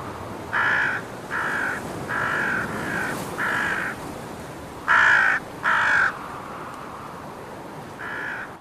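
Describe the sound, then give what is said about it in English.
Harsh, crow-like caws from smaller birds mobbing a flying eagle come as a series of loud, separate calls. A few come in quick succession, then there is a pause and one final call. “More of the smaller birds are now joining in with the mobbing.”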